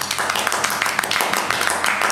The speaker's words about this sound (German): Applaus.